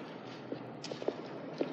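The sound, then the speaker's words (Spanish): Faint footsteps as someone sets off walking: a few soft, irregular steps over a steady background hiss. “Echa a andar.”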